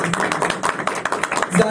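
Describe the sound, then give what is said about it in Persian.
Audience clapping at a night celebration of the birth of Imam Ali (Amir al-Mu'minin), with a quick, steady rhythm of sharp claps over a voice throughout. “من امشب میخوام دست بزنید به امیرالمومنین.”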